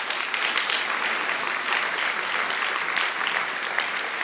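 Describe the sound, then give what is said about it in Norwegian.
Audience applause: a dense, steady clapping wash that holds at an even level throughout, with no pauses. “Applaus”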